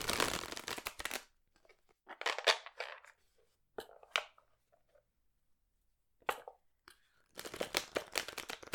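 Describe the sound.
Tarot cards are shuffled in several fairly soft bursts of rapid papery riffling, separated by short pauses and ending with a longer run.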